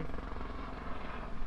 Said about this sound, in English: I'll let the helicopter pass. Hello, helicopter.